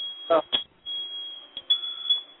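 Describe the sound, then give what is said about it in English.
A mobile phone beeps, giving a steady high-pitched electronic tone that runs through the whole stretch under people talking. “Whose phone is that? It's not mine, I don't think. Not mine.”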